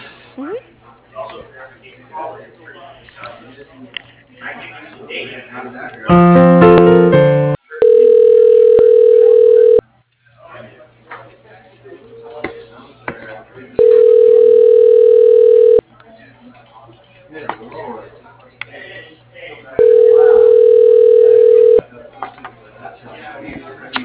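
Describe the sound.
Telephone call being routed to voicemail: a short burst of dialing tones, then three long, steady line tones separated by pauses, with people talking quietly throughout.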